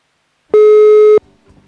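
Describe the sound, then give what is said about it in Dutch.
A telephone busy signal after dialing a wrong number: one loud, steady mid-pitched tone lasting well under a second, followed by faint low rustling. “Dus nou, wij gaan bellen met verkeerde nummer.”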